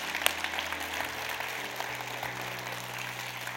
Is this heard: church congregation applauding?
yes